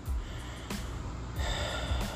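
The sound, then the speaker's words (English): Quiet breaths are drawn in through the nose during a guided breathing exercise: a few short, airy sniffs and snorts separated by soft rushing air, all faint; no talk. “Breathe in.”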